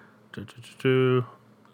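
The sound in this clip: A computer mouse clicks while scrolling through an alphabetical list, giving a few quick, light clicks, followed by a short voiced sound.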